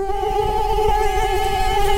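A mosquito buzzes in a loud, continuous high whine with a slight waver in pitch, heard alone and steady from start to finish.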